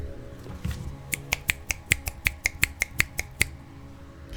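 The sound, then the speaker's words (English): A person snaps their own fingers in a steady, evenly spaced run of many crisp, sharp snaps over a faint background. “Yes, I self-snapped, I have to admit. That was a self-snapping.”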